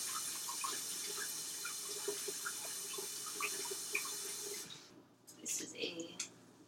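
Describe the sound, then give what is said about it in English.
Tap water runs while egg is washed off hands, a constant soft hiss that cuts off abruptly, followed by a brief voice. “Your hands are covered in egg. Wash it off. Wash it off.”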